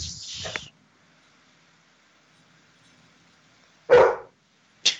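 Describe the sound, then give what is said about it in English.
A dog barks in a few short, sharp bursts, the first near the start and the rest after a long quiet gap; no voices are heard. “Dog barking, cats meowing”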